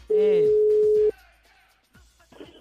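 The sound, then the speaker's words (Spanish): A loud, steady telephone line tone sounds for about a second as a radio studio dials a caller. Brief talk overlaps its start, and faint, scattered noise follows once it cuts off. “Cuelguen sus celulares, manténganlos libres, porque la producción les está marcando en este momento.”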